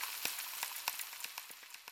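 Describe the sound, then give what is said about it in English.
Sausages and eggs frying in a pan make a steady, fairly faint sizzling hiss broken by many small irregular pops and crackles, with no voices. “I wake up to the smell of frying sausages, toast, eggs, and I hate it.”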